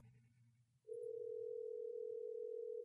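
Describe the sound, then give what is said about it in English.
A ringing tone on an outgoing telephone call: one faint, steady electronic tone that starts after a moment of low line noise and holds unbroken to the end. “I think it's ringing. That's the sound of something ringing.”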